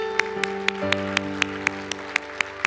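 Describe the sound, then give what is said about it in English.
Applause in a church service, heard as sharp, evenly spaced claps in a steady beat over sustained keyboard chords. “Let's give them a hand this morning.”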